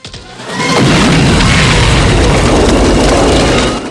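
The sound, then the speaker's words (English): An explosive detonates in a Rambo action film: a loud blast swells quickly into a sustained, roaring rumble of crashing debris that holds steady before easing off at the end. “Rambo rises from the water and fires on the guards, downing one of them. The explosive detonates, killing the rest.”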